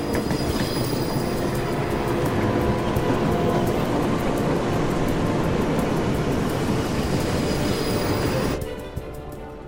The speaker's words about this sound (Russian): По бескрайним снежным просторам мчится заиндевевший поезд.